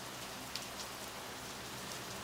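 Rain dripping outside: a soft, continuous patter of drops, quiet and even throughout, with one slightly sharper tick early on.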